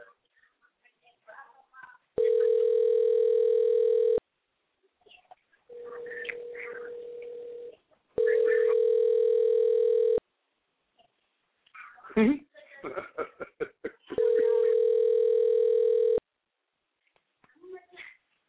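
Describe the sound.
Telephone ringback tone from an outgoing call ringing out before voicemail: three long, steady tones separated by gaps, with people talking quietly in between.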